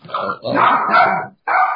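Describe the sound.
Puppies bark and yip in a quick run of sharp, high barks. There are a few noisy bursts, then a brief silent gap before one last burst.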